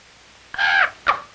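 A bird gives two harsh, cawing calls, a longer drawn-out caw followed after a short gap by a brief clipped one, clear and alone against quiet.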